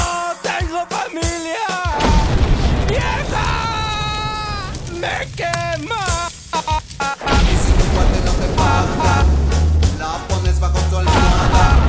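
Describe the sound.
A toy bomb explodes in crashing, booming bursts mixed with screaming voices, followed by a dense, rumbling stretch of noise.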